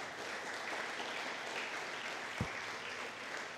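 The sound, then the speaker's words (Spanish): Applause from a church audience giving a loud clap for Christ, a faint continuous wash of many hands clapping with one sharper thump partway through. “Denle un fuerte aplauso a Cristo, aleluya.”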